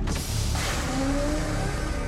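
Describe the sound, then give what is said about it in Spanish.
Heavy mechanical rumble of a loader's mechanical arm lifting an armoured vehicle off the ground, loud and continuous, with a faint whine rising through the middle. “El cargador avanza, empujando los vehículos blindados fuera de su camino. La perspectiva de Tessa muestra al cargador llegando al último vehículo. El brazo mecánico levanta el vehículo del suelo”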